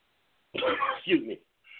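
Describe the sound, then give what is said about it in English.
Throat clearing from someone sipping dandelion tea: a short, voiced two-part rasp, moderately loud, followed by a brief faint tail after a pause. “my dandelion tea, trying to clear my throat for the show.”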